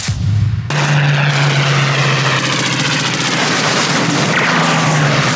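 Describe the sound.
A loud aircraft engine roar in a radio drama about a plane hit by gunfire with an engine on fire. The roar starts abruptly after a brief lead-in and holds steady.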